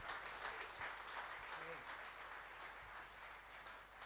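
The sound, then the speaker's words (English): Applause from an audience at an Easter church service welcoming a guest speaker: dense, steady clapping that stays at an even level for the whole stretch. “Let's put our hands together and welcome him.”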